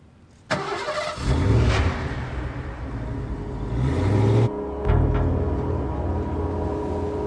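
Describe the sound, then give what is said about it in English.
A car engine starts and drives off, a steady mid-pitched drone with two louder revving surges and a brief break before the motor picks up again. No voices. “They start driving a little bit. Belushi pulls into an alley.”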